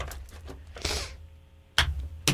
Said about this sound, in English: Let me get the card shuffled.